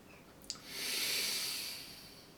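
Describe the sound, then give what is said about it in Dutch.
A deep breath drawn in from the belly during a guided breathing meditation: a soft, airy hiss that swells steadily for about two seconds, then eases off, preceded by a brief click. “En we ademen in vanuit die buik.”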